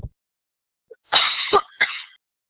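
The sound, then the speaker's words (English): A person with a recurring cough gives three harsh coughs in quick succession after a couple of tiny faint sounds, with silence all around. “my apologies, I've been subject to coughing lately and it seems to have come back”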